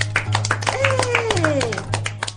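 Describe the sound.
Audience clapping at an event, many quick, uneven claps running throughout while a voice calls out over them, above a low steady hum.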